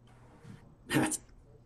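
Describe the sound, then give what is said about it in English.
An English bulldog gives a brief, breathy snort or sneeze-like huff in a backyard at night. It is a single quiet burst against low background noise. “Here's my two dogs. I got an English bulldog.”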